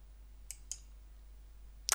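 A computer mouse clicks as photos are selected and stacked in photo software: a few faint, sharp clicks spaced apart, the last a quick double click.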